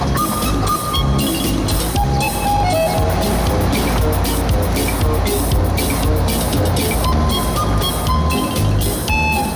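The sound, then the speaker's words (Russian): An aerial work platform truck drives along a sidewalk with a loud, continuous engine rumble and road noise. The sound holds steady for the whole stretch, with faint tonal sounds layered over it. “Едут по тротуару за Портосом на автовышке.”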